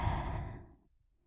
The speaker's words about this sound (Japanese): 私の声に合わせて深呼吸していこうね。いいかな。はい、吸って、